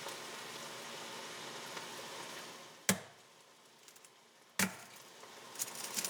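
A garlic bulb is bashed with a kitchen knife: two sharp, loud cracks, spaced well apart, against a soft background hiss.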